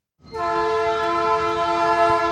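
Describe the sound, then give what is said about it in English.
A freight train's horn sounds at a spot in Springfield, Illinois: after a brief silence, a loud, steady, chord-like blast starts and holds at an even pitch to the end. “A freight train rolls past what's now an unremarkable spot in Springfield”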